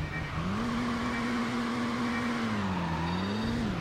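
Car engine accelerating in a racing video game, a car with slow pickup: a steady, moderately loud engine drone that climbs at the start, dips briefly and then rises again, with no talk.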